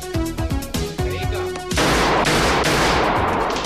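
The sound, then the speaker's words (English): Gunshots ring out at a busy shooting gallery during target practice. Many sharp shots come in quick succession, and the firing grows denser and louder partway through, into a near-continuous barrage. “He walks into a busy shooting gallery where people take target practice at a moving black and white projection of gangsters.”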